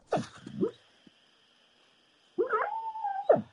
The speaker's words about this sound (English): If you hear that in the background, that's actually my dog, and she's actually dreaming right now.